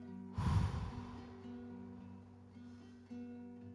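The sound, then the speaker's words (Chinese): A slow exhale through rounded lips during a Kundalini yoga breathing exercise: one breathy rush of air, strongest at the start and then tapering, faint against a soft, steady musical drone. “嘴巴圆圆的吐气，”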